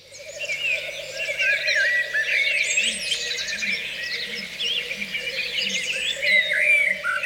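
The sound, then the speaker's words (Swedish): Faint, deep hoots of a great grey owl form a slow, steady series beneath a dense chorus of songbirds during a night of birdsong recording. “Lappuggla.”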